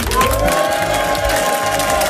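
A live audience in Saulon-la-Chapelle cheers and applauds loudly. The sound is a dense, continuous roar of clapping and shouting with some sustained tonal whistling woven through it.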